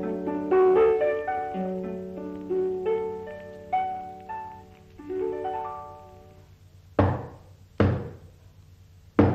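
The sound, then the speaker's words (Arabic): Knocking on a door: three loud, sharp knocks, spaced irregularly. Before them comes a short passage of plucked musical notes. “خبطة علي. افتح يا حبيشة.”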